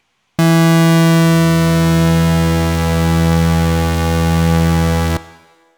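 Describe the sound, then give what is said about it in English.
Two synthesizer oscillators tuned an octave apart blend into one sustained, buzzy, harmonic-rich tone that holds steady pitch for about five seconds with a slight slow swell in loudness, then cuts off abruptly. “Two oscillators an octave apart sound like this.”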